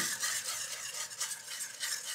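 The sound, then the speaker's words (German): Stirring of beer batter in a bowl until smooth, a batter meant for deep-frying asparagus: continuous wet scraping and swishing with steady, rhythmic swirls, fairly faint and with no talking. “Das geben wir jetzt hier einfach dazu und rühren so lange, bis ein glatter Teig entsteht.”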